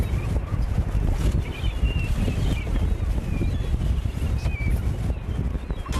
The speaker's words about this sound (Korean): 가만히 서 있기조차 힘든 세찬 바람.